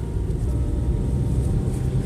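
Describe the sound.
A car being driven gives a steady low road rumble and engine drone, constant and fairly loud throughout, with no voices.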